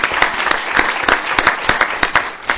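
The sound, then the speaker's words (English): Audience applause, a dense, even wash of clapping with sharp individual claps standing out, loud and steady throughout. “Family Connections, CASA, we'll clap.”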